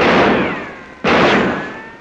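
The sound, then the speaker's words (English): Gunshot bangs out as a loud, sharp burst with a long decaying tail, followed by a second equally sudden blast about a second later that also fades slowly. “Hey, stop or I'll shoot.”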